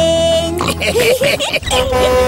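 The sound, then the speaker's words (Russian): Pig oinking sounds play within a bright children's song about pigs riding grandpa's little train, with snorting, wavering grunts set over a sustained melodic backing. “Свинки в паровозике, хрю-хрю-хрю, хрю-хрю-хрю.”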